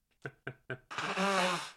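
Nose blowing: three short, sharp puffs come first, then one longer, louder honking blow that holds steady until the end.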